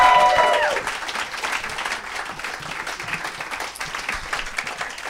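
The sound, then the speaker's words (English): Crowd applause for comedian Ron Funches at a comedy show begins loud with a brief tonal sound on top. It then settles into a sustained, even roar of clapping. “Guys, give it up for Ron Funches. Thank you. One more time for Ron Funches, ladies and gentlemen.”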